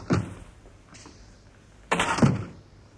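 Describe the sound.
A door to a private laboratory opens with a short thud at the start, then a fainter knock and a heavier, longer clunk and scrape about two seconds later.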